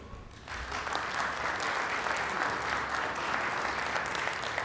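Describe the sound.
Applause welcomes a speaker to the stage at a broadcast transmitter engineering presentation: after a short quiet moment, many hands break into steady, even clapping that holds at a constant level to the end.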